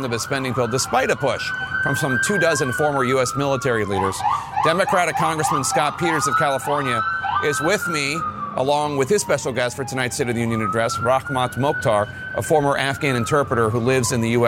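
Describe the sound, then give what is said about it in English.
Wailing police and emergency sirens from motorcades moving through traffic ahead of the State of the Union address, rising and falling steadily and loudly under continuous talk from a reporter and a guest. “We should point out what you're hearing is a whole bunch of motorcades and stuff going on right now”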